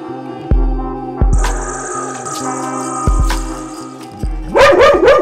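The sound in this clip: A dog barks: a few loud, widely spaced barks, then a quick burst of rapid barks at the end, over a steady low hum.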